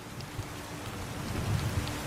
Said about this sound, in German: Manche sagen, es sei der Klang des Regens, der sie ruft.